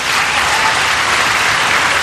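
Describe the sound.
Applause fills the chamber during Donald Trump's address to Congress, a loud, dense, unbroken roar of clapping that stays level throughout with no speech over it.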